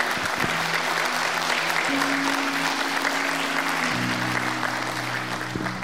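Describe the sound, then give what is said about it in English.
Audience applause welcomes a guest from the Philippines: dense, steady clapping that runs for about six seconds at an even loudness, with low sustained tones underneath. “So why don't you put your hands together and please would you welcome Lucille.”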